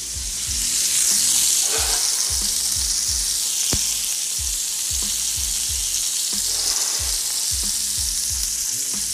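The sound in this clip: Chopped breakfast food sizzles and fries steadily in a pan over medium heat, a loud continuous hiss with many rhythmic scraping stir strokes running through it.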